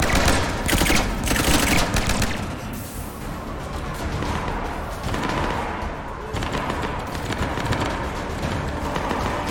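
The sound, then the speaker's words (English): Heavy gunfire in a video game battle involving a Turian, dense bursts of rapid shots and impacts crowding together loudly, strongest at the start and surging again later. “Everyone is shooting and dying everywhere.”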